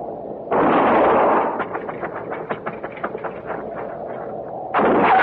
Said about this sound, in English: I'm going to fire and roll away, maybe draw a shot.